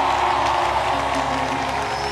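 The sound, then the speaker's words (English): A church audience at a praise service applauds with even, continuous clapping at moderate level, while a sustained musical tone hums beneath it. “Come on, give the Lord a hand.”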